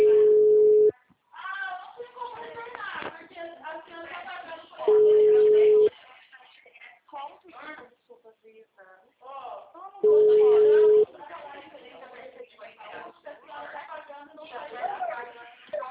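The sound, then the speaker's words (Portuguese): The ringing tone of an outgoing telephone call sounds as three steady, low-pitched tones about one second long, spaced roughly five seconds apart, with people talking in the gaps between them. “Tô ligando pra ela, vamos ver.”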